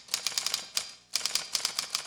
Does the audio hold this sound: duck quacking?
no

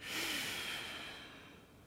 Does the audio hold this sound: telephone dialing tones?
no

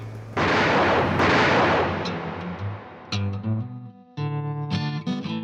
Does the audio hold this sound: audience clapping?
no

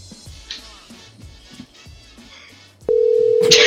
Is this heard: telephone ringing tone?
yes

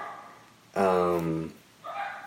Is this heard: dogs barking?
yes

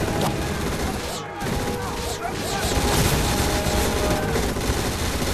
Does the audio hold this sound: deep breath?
no

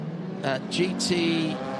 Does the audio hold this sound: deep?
no

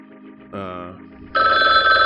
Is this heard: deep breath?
no

